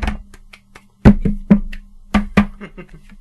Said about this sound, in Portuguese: É que eles fazem, não é só bater com o copo, eles fazem lá, depois fazem assim umas coisas com a mão, por cima e por baixo, fazem lá umas camalhotas.